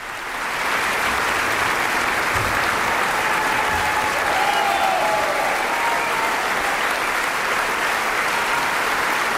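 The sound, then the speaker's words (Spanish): An audience in Carinthia applauds after Mozart's Piano Concerto No. 20 in D minor, K. 466, played with the Camerata Salzburg, a loud, dense, sustained wash of clapping that holds steady throughout. “Y ya escuchamos cómo el público de Carintia, entusiasmado en este concierto celebrado el pasado 2 de agosto, reclamaba al intérprete, al joven pianista Lucas Sternad,”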